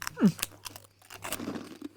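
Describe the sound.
Someone eating a crunchy snack: a few faint, crisp crunches and chewing sounds with soft rustling.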